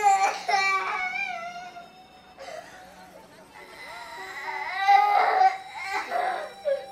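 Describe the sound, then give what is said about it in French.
Children crying and sobbing in a polluted, abandoned industrial neighborhood: several wailing cries that rise and fall in pitch, broken by whimpers and short gaps, fairly loud. “Les enfants pleurent à cause de la pollution qui leur pique les yeux.”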